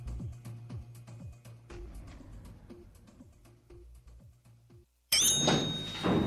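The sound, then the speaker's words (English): Elevator doors closing and the elevator starting up: a series of low thuds and rattling bumps over about five seconds, a brief hush, then a loud, steady rushing whir with a thin high tone. “Elevator going up.”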